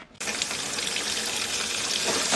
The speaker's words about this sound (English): If you've ever heard about water faucets that light up from seeping gas, chances are the reference is to a famous or infamous scene in the film.